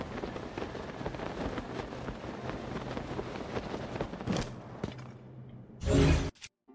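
Wind rushes past a paraglider gliding through the air in Zelda: Tears of the Kingdom, a steady airy whoosh broken by a couple of louder gusts near the end.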